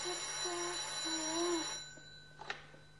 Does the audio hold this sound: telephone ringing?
yes